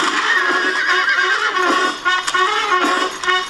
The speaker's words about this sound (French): Ils suivent une calèche. À son bord, deux hommes complètement ivres, Marco et Blacky, qui jouent du revolver.